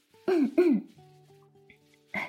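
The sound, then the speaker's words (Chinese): Dry throat clearing from an itchy throat: two quick, voiced hum-like throat clears in close succession, then a hush and one further short throaty sound. “我自己就干哼哼一下就没事了，没事了啊。”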